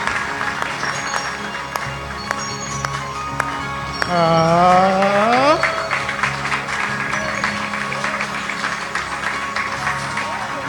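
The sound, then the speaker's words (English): An audience at an awards event claps for a bishop, a steady wash of applause and crowd noise throughout. A brief rising tone swells through the middle of the clapping. “Wow, put your hands together.”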